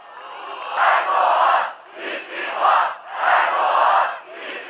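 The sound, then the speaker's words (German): A protest crowd chants in unison outside Istanbul city hall, with many voices rising and falling in repeated rhythmic phrases separated by short dips. “Erdogan tritt zurück, rufen Zehntausende vor dem Rathaus in Istanbul.”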